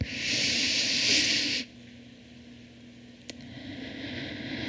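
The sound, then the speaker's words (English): A single long, deep breath comes as an airy hiss, steady and fairly soft, then stops abruptly and leaves near-quiet with a faint low hum. “And when you take another deep breath in, breathe any of that heaviness or tightness out.”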